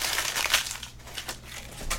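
A paper draft of a novel is crumpled up to be thrown away, producing dense, irregular crinkling and crackling that continues throughout at a fairly steady loudness, with no talk.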